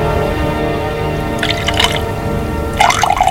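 A drink is poured from a glass bottle in two short, splashy bursts of liquid, the second near the end, over a steady low background hum.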